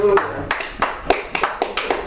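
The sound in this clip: A church audience clapping their hands: a run of sharp, crisp claps in a loose, steady beat through the whole clip, with voices audible beneath.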